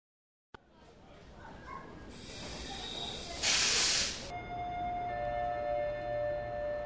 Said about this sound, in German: Sie hören eine Durchsage am Bahnhof.